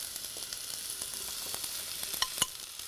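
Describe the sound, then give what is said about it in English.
Peppers and onions fry in hot olive oil in a cast iron pan, giving a steady bright sizzle full of fine crackles, with a few sharper pops near the end and no talking. “Or anything with cast iron that just conducts pretty high heat. So I'm going to put in some olive oil, probably about a tablespoon or two. My olive oil is hot, so I'm going to get in my peppers and my onions.”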